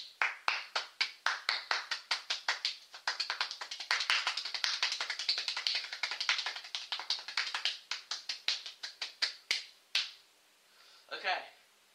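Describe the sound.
Hands clap in a rhythmic groove: sharp, crisp claps start evenly spaced, speed up into a dense rapid run, then slow back to separate beats. A brief vocal sound follows at the end.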